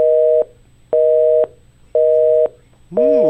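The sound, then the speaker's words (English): Telephone busy signal: a loud, steady tone pulsing on and off at an even rhythm, with three full beeps and a fourth cut off at the end. “Busy signals. No, not anymore because, well, basically, you go straight to voicemail nowadays.”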